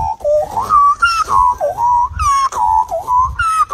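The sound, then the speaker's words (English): An Adelaide man vocally imitates an Australian magpie call: loud, whistle-like warbling phrases that glide up and down in pitch, broken by brief gaps, with no other sounds. “an Australian has gone viral over the weekend with 1.5 million views of his magpie impression, which sounds like this.”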